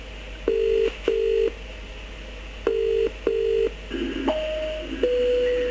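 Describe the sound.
A telephone call is dialled and rings through: four short, steady electronic tone bursts in an uneven rhythm, then a brief patch of noise and a couple of longer, higher tones, with no voices.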